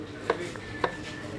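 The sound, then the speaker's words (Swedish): A knife chopping onion halves on a cutting board during a timed cooking contest: two crisp, separate knocks against a steady background murmur. “Och så kör de en liten skåra in där på mitten. Ja, det är jämnt. Alltså nu hackar de.”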